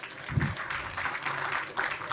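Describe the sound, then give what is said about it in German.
Moderate applause welcomes a speaker at the start of a talk, a continuous patter of clapping with a low thump near the beginning. “Und dann würde ich sagen, großen Applaus und ganz viel Spaß mit dem Talk.”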